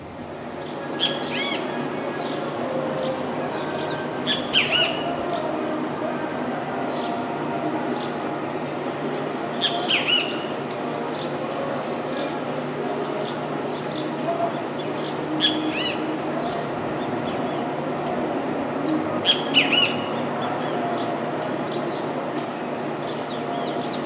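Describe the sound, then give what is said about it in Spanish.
Great kiskadee, a tyrant flycatcher, calling in Oaxaca city: a few sharp, bright call bursts come several seconds apart over a steady background hum. “en la ciudad de Oaxaca, un Luis Bien Te Veo, ave mosquitera distribuida desde el norte del país hasta el sur de Argentina.”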